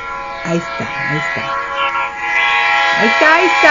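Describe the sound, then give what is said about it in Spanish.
A train passes with its horn sounding a long, steady, loud multi-tone blast over a low rumble, while voices talk over it at the start and end. “Ahí está. Se lo llevó el tren.”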